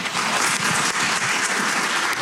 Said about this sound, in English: Cheers breaking out several times during audience questions, while Ministers Nate Glubish and Dale Nally